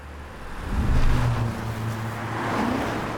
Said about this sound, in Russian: К дому подъезжают две машины.